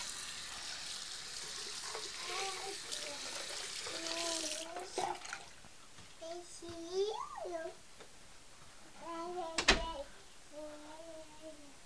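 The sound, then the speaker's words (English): A tap runs while a small child's face is washed, a soft steady hiss under a child's babbling and vocalizing, with a brief louder splash near the end. “let's go wash your face”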